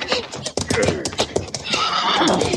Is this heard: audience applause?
no